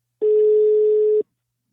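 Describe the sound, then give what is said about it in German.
Ringback tone of an outgoing telephone call: a single steady mid-pitched hum that lasts about one second and then stops, heard alone. “Und genau deshalb habe ich Sexualtherapeutin Heike Melzer angerufen.”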